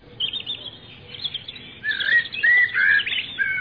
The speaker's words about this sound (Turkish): Gözleri erik ağacındaki kuşa takıldı.